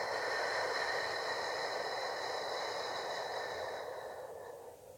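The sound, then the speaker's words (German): Slow breathing through the nose during a guided relaxation exercise, as one long, soft, airy breath that holds steady and then gradually fades away. “Atme durch die Nase hoch in deinen Brustkorb hinein, bis er sich hebt, und dann atme lang und fein aus.”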